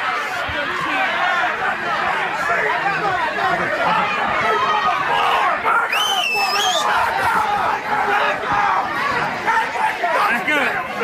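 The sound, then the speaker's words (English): A Black Friday shopping crowd at Walmart: loud, continuous babble of many overlapping voices talking at once, with no single speaker standing out. “Let me just give you a soundbite of Black Friday. Tell me if this sounds like fun.”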